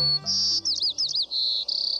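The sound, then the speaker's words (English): Song of a white-crowned sparrow: a clear, high whistled opening note followed by quick buzzy, trilled phrases and a final sustained whistle, bright and alone. “This is the song of a white-crowned sparrow. Some describe it as, "See me, pretty, pretty me."”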